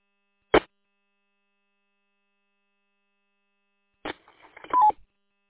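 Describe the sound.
Telephone dialing tones: one short beep, then after a long silent pause a quick run of several tones that ends in a slightly longer one.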